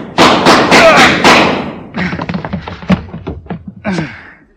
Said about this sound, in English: You only hit me once out of four shots.